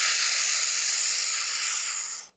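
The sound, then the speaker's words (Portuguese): A steady, airy hiss of breath drawn in through pursed lips as if sucking air through a straw, one long even inhale of about two seconds that stops abruptly, with no voices. “pensa assim: você está chupando o ar por um canudinho no copo, tá? E vai fazer esse barulhinho.”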